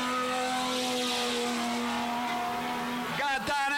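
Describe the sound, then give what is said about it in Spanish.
Traditional TC touring race coupés roar around the circuit, a steady, dense engine drone with strong harmonics that shifts abruptly near the end as the cars sweep past. “Escuchá cómo suenan las cupecitas al Alvear. Escuchá.”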